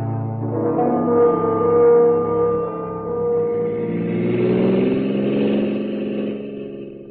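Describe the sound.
A car drives someone to the airport, its engine giving a steady, full hum whose pitch slowly shifts and swells as it moves, with no voices.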